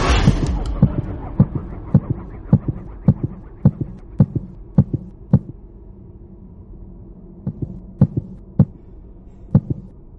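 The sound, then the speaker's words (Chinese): A heartbeat sound effect from a video game's mind-reading power plays as many evenly spaced low thumps over a steady hum. The thumps pause briefly midway, then resume at the same pace. “读心术真的是读心术啊，就给我听他心跳罢了”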